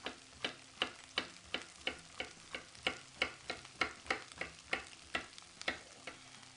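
Red and green peppers and onions fry in a pan, a steady sizzle broken by many sharp crackles that come at a fairly even rhythm throughout.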